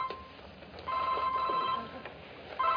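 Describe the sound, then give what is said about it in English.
A mobile phone rings with a steady electronic tone in repeated bursts, one long ring followed by a pause and the start of another. “No, it's my phone. I apologize for that. I didn't even remember I had it.”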